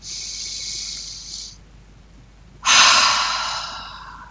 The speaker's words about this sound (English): Okay, so that's your three ha breaths.